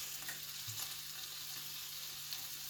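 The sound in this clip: Breakfast sizzles in a frying pan, a steady, loud hiss of frying with no gaps, along with a faint low hum and no voices.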